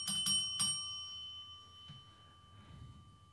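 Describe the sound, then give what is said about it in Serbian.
A small bell is struck three quick times, each strike bright and sharp, with its clear ringing tones lingering and slowly fading over the following seconds. No one speaks. “udari zvono, malo da se to obeleži”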